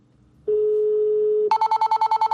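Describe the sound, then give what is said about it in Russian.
Telephone number being dialed with DTMF tones: a steady single tone holds for about a second, then a rapid run of short, evenly spaced higher beeps follows. The tones are loud and clear, with no talk. “То есть, вот выбрал я, допустим, вот этот номер и наберу.”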